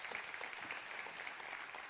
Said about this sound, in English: Come on, give them a hand. Let's welcome our online folks right now.